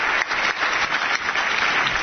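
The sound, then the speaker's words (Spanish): Sustained audience applause at an award ceremony in Vizcaya as a first-prize winner is announced: dense, even clapping that carries steadily through the whole clip with no voices over it. “Un aplauso para Campo y Ochandiano. Felicidades a esta firma también.”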